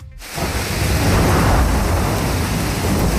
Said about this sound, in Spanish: Este es el sonido de la lluvia y el granizo a esta hora, tanto en la capital como en otros muchos puntos de la región.